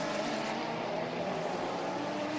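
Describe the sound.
A racing car engine roars under throttle as the car accelerates up a hill during a close multi-car race, a loud, dense, continuous mechanical drone that stays steady and unbroken throughout, with no voices heard.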